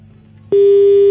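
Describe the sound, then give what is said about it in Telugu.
A phone call disconnected tone: a single loud, steady mid-pitched electronic beep starting abruptly after faint low background hum and holding flat until the end. “Shraddha call cut అయినట్టుంది”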